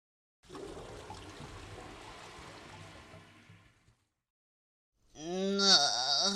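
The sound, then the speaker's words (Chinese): Shower water runs during bathing, a steady, broad hiss lasting about three seconds before it cuts off. After a short silence a voice follows, drawn out and wavering. “那我就先去洗澡了。”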